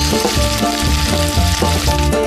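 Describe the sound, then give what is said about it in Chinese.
Beef strips with grass shoots sizzle on a hot iron griddle, a loud, steady frying hiss with crackling spatter running throughout and no talk. “一道铁板草芽牛柳，让细嫩与清甜变得滋滋可闻。”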